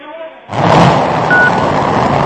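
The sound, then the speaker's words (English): A Chinese crewed rocket carrying three astronauts lifts off from its Gobi Desert launch center, a sudden loud, dense roar surging in after a quieter start and holding steady and powerful to the end. “Lifting off from their satellite launch center in the Gobi Desert, China rocketed 3 astronauts towards the country's new space station.”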